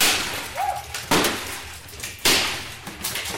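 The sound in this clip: Breakables smashed to smithereens at the Smash It 2 rage room: two loud, heavy crashing impacts with a sharp, glassy edge, separated by quieter rattling and scraping.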